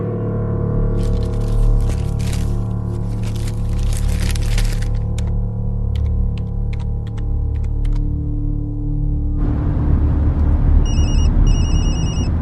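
A telephone rings with a few short electronic trilling bursts near the end, after a stretch of scattered dry clicks and taps over a steady low hum.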